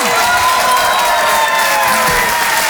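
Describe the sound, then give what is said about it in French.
Loud ovation for a performer at a comedy stage show, with dense clapping mixed with cheering, shouts and whoops from the crowd throughout. “Je vous demande de l'encourager très chaleureusement, de faire une ovation, s'il vous plaît, à Karine Dubé.”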